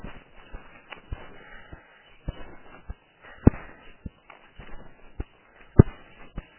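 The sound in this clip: Footsteps on a morning walk make a faint, steady series of soft, dull thuds at an even walking pace, with a few steps landing louder than the rest.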